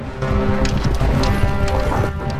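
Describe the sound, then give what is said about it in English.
Horses' hooves clip-clop steadily as two riders travel toward a town, giving a dense, continuous low clatter at an even, fairly loud level. “Now, Robin and Mudge are riding towards Nottingham town.”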